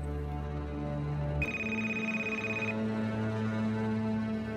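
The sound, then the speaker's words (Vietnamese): A telephone rings with one sustained, bright electronic tone lasting just over a second, set against a continuous steady background bed. “Điện thoại của bác Phụng reo lên.”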